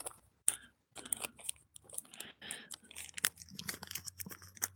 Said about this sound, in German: Ich falte jetzt gerade den Brief zusammen. Also den Zettel. Den Kassenbon. Mhm. Und wickel ihn jetzt um die normale Rolle hier.